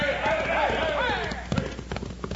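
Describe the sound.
Clip-clopping hoofbeats of horses galloping away in a Western setting, a fast rhythmic clatter partly buried under a louder tonal layer, with a few sharper hits toward the end.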